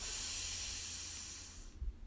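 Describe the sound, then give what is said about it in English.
A deep breath drawn in through the nose during a breathing exercise: one long, airy hiss that holds steady for over a second, then fades away. “So breathe in”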